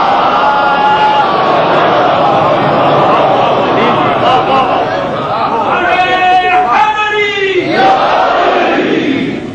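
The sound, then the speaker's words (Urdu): A large crowd loudly reciting salawat together, a dense mass of voices chanting in unison, with a few stronger drawn-out phrases standing out toward the end. “صلوات بھیجیے بلند”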